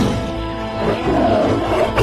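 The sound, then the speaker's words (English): A tiger roars while caught in a trap, giving a loud, continuous, low rumbling roar that fills the whole stretch with no other sound. “Once upon a time, a tiger was caught in a trap.”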